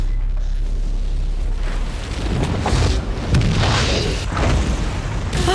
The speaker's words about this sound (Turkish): Yanıyor. Büyük bir patlama